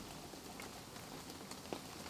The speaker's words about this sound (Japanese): 雨はまだ止みませんね。